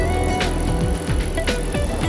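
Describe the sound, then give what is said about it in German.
Bicycle riding along a palm-lined beach bike path on the California coast toward Ventura, with continuous rolling road noise, a low rhythmic mechanical whir and a couple of brief rattling bursts. “Ich biege auf den von hohen Palmen gesäumten Radweg am Strand, fahre weiter, erst nach Ventura, dann nach Oxnard”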